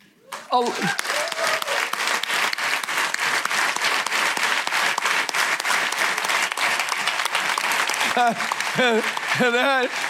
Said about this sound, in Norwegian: Så jeg tenker at hvis dere reiser dere nå, og så skal de få en ordentlig applaus, for uten dem er det ingen podd.